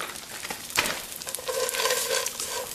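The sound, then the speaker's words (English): Slivered almonds added to a hot sizzling pan give a steady crackling fry with stirring scrapes, a short sharper burst near the start and the sizzle swelling slightly in the second half. “And then I'm going to add my slivered almonds in there.”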